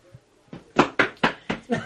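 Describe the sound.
Sharp knocks at a door come in a quick, even series, the first one lighter and the rest firm and evenly spaced, with no other sound around them.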